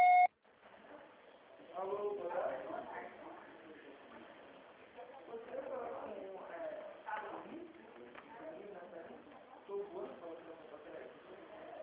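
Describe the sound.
A voicemail beep sounds as one short, loud electronic tone at the very start, then a person speaks quietly for the rest.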